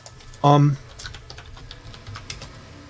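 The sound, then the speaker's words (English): Computer keyboard typing gives sparse, light key clicks. A brief, loud tonal burst stands out near the start, and softer taps follow. “I'll type it over in her thing so you remember who it was that explained it to us.”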